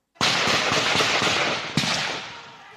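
Gunfire during a civilian militia attack on a police station: a dense, crackling burst of rapid shots lasting about two seconds, with one sharper shot near the end before it fades.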